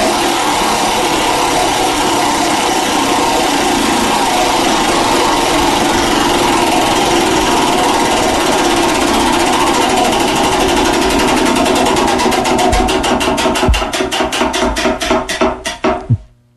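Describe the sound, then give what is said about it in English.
A prize wheel spun during a sports talk segment: a loud, rapid run of ratcheting clicks that gradually slows, the individual ticks spreading further apart before stopping abruptly. “let's spin that wheel.”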